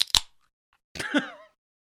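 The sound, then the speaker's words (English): A Miller High Life beer can cracks open with a sharp, crisp snap of the tab. After a short silence comes a brief hissing burst, and then the sound stops. “I'm about to crack open a beer.”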